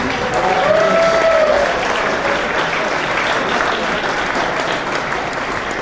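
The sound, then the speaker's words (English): An audience applauds itself after being praised as the best crowd: a thick wash of clapping that runs continuously at a strong, fairly even level, easing slightly toward the end. “I'd like you to give yourselves a hand because you're the best audience, I think, we've ever had for one of these.”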